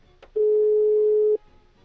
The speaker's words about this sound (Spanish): A ver, vamos a esperar a que se enlace la llamada y esperamos a que nos contesten.